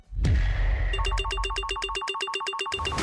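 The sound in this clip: A telephone line at a radio station rings with loud, rapid electronic trilling pulses, a steady warbling burst that repeats quickly for about two seconds after a brief opening tone.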